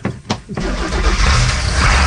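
A lobster boat engine cranks over in a couple of short bursts, then catches and settles into a loud, steady, rumbling roar.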